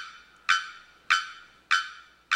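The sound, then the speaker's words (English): Loud, abrupt calls from a male bearded bellbird singing in the tropical forest canopy of Trinidad: four sharp, ringing notes at a steady, even pace, each striking hard and fading quickly. “In the tropical forest of Trinidad, a male bearded bellbird sings from within the tree canopy.”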